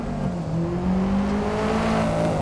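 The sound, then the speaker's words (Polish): A race car engine drones steadily as the car drives down pit lane toward the track in a Forza Motorsport racing game. The engine holds a smooth, even hum throughout. “Under a sunny sky, your car drives down pit lane to get on the track.”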